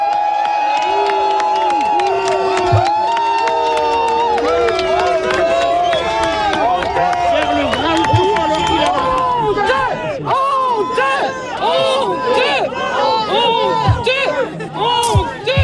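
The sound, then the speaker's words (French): A few dozen residents of fire-hit Le Porge greet a visiting minister with a crowd noise of loud, overlapping shouts and raised voices. The din is continuous throughout, with individual cries rising and falling over the babble. “Je propose d'écouter l'accueil justement réservé par les quelques dizaines d'habitants du Porge présents auprès du ministre ce matin.”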